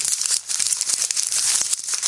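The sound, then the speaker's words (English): A large sheet of paper being rolled up gives off a continuous papery crinkling and rustling hiss, with a few sharper crackles scattered through it, heard alone. “What was that? Big piece of paper. Rolling up your paper. These are large sheets of paper.”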